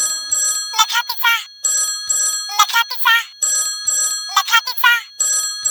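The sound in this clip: A telephone ringtone sounds within a Marathi song: bright, chirpy ringing bursts that repeat in a steady pattern of short trills separated by brief gaps.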